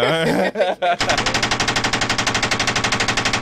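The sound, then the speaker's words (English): A gunshot sound effect plays as a rapid burst of automatic gunfire, many sharp evenly spaced shots in a loud continuous rattle that follows a brief lead-in sound. “Can we get some sound effects for me, please? Get some gunshots. Oh, it's a gunshot?”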